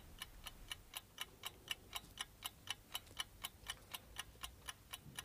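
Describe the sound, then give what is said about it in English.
A clock ticks steadily, about twenty crisp, even ticks at roughly four per second, each a sharp bright click over a faint low hum, with no voices or other sounds. “Have you noticed how loudly clocks seem to tick when there's someone dead in the house?”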